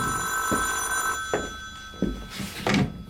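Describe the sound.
A telephone bell rings in a 1978 East German radio crime drama, a bright sustained ring for just over a second that then breaks off, followed by a few dull thumps.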